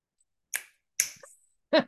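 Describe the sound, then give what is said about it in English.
Finger snaps keep time to a spooky horror TV theme, sharp dry clicks in a slow beat with quiet gaps between them. “I'm going to ask you to do your snapping ability for Addams Family.”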